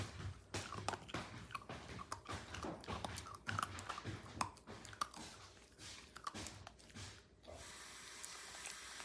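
A pet chewing its food: many quick, irregular wet bites and crunches follow one another in a busy, uneven rhythm, fairly loud and with no talking.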